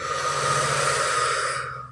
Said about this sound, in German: Atme mal tief durch. Richtig tief, meine ich.